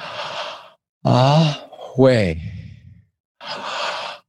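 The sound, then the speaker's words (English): Slow audible breathing during a guided breathing exercise: a long, airy breath at the start and another at the end, with a voice sounding drawn-out vowels in between. “let's breathe in together. When you breathe out, when you start to breathe in and out, you begin to hear the vowels or the audible sounds.”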